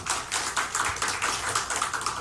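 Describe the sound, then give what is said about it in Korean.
A church audience clapping: a fast, dense patter of many hands striking together in a steady rhythmic pulse, fairly soft and even from start to finish. “하나님께 영광의 박수 올려드리겠습니다.”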